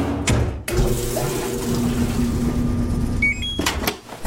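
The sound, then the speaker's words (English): Laundry appliances running: a steady rush of water filling a washing machine, with a brief series of high electronic beeps near the end and a few knocks at the start and finish. “Those are the sounds of your spring cleaning with a new laundry set,”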